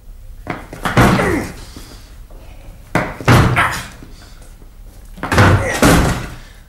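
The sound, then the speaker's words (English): Three heavy thuds of a shoulder slamming against a locked door to force it open, each impact spaced about two seconds apart with a rattling crash and a softer knock just before it. “It's locked, sir. Stand out of the way while I put my shoulder to it.”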